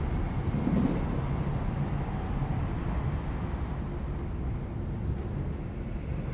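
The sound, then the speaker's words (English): Continuous low rumble of a moving train heard from inside a carriage, a steady, dense roar with no clear breaks or beats. “Inside a moving train, Precious sits at a window seat.”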